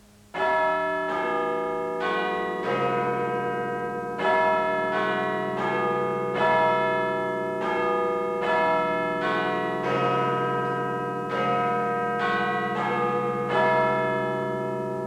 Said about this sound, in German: Das ist die Glocke vom Big Ben. Big Ben nennt man den Turm von unserem Parlamentsgebäude. Die Glocke kennt jeder in London.